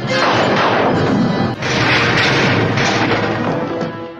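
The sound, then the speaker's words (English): Loud starship phaser fire sound effect forms a dense, roaring barrage. The fire continues almost without a break, dipping briefly about midway before surging again. “All phaser banks, maintain firing rate.”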